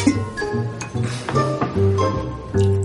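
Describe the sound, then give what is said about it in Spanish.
A thermometer clinks against a wine glass as it is dipped in: a few light, glassy pings ring briefly over a soft tonal background. “Irene mete un termómetro en la copa de Andrea. Debería estar a dos grados menos.”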